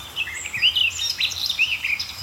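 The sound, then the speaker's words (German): Warbler song: a continuous run of quick, high, twittering and warbling notes that rise and fall rapidly, moderately loud and alone for the whole stretch. “Weil ganz ehrlich, die Grasmücke kann manchmal auch, also sie ist euphorisch, sie ist genial, aber sie kann auch manchmal richtig wehtun in den Ohren.”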